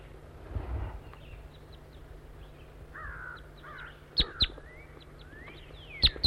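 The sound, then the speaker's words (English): Wild bird calls with a crow-like caw, several short calls over quiet background hiss, ending in a few sharper, louder calls. “Calling to the wild bird.”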